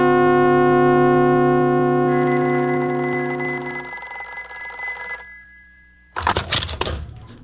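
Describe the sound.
A telephone rings with an incoming call from a hospital: a long, buzzy harmonic ring that thins and fades, then a few rapid, trilling bursts of ringing near the end.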